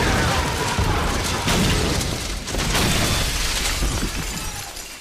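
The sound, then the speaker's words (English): Explosion staged for a film action scene with SWAT team actors, shot in an alley behind sound stages: a loud, dense roar with crackling debris that holds steady for several seconds and then slowly thins, with no clear talk. “Kiefer and... our other SWAT team members were the actual actors in that explosion. No stunt people used at all.”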